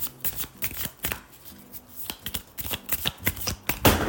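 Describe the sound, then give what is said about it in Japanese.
Cards from a numerology card deck are handled and drawn for a reading: many quick, papery flicks and riffles in an uneven rhythm, clear and unaccompanied by voices. “数比のカードを引いてみたいと思います。”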